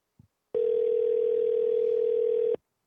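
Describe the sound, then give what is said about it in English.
A telephone ringback tone from an outgoing call that is not being answered: a single steady, even tone that holds for about two seconds before cutting off. “Let's see if this picks up now. God damn it, Joe. This better go to fucking voicemail.”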